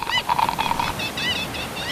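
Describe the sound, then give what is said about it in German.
Seagull cries in a beach sound-effects scene: a run of short, nasal calls, then a few more spaced calls, set over a steady rushing noise like surf. “Wir zaubern uns Strand ins Radio. Da sind die Möwen, die Wellen, die Cola. Eiswürfel, ganz wichtig.”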